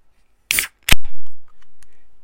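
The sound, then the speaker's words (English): A can of Bench Brewing Lincoln Lager beer is cracked open. A short click comes first, then a sharp pop, followed by a fizzing hiss that slowly fades. “Did you hear that? That was me cracking a beer.”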